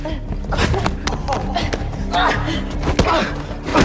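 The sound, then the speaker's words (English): Blows and strikes land in a scuffle between a man and a woman during a film fight scene, with several sharp thuds among continuous busy scuffling noise. “Peter fends off her attack and strikes her viciously as she stumbles away from him.”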